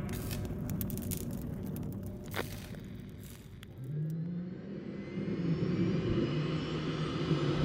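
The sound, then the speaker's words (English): A gunship powers up and takes off from a bare landing field: a loud jet-like engine roar with a low hum that climbs steadily in pitch through the second half, with no voices. “The gunship powers up from a bare landing field on the surface, several kilometers outside Numinous City.”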